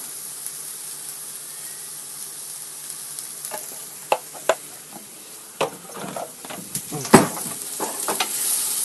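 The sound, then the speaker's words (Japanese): Stir-frying in a pan over medium heat, stirred with a wooden spatula: a constant sizzling hiss runs throughout, with sharp scraping clacks that grow louder and more frequent in the second half. “中火で香りが出るまで炒めるんだそうですよ”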